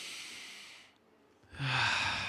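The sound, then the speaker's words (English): A voice imitates a deep, slow breath: a long, airy inhale, a short quiet pause, then a louder, rougher and slower exhale with a low, breathy rasp. No one talks. “He's giving the image of someone who, when they breathe in and out, breathes in very deep and long and slow out.”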